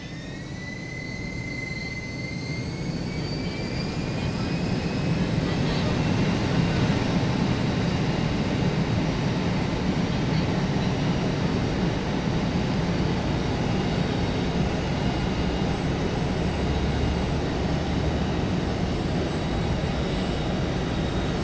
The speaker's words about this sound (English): Zero reference, this is takeoff sound of a DC-8.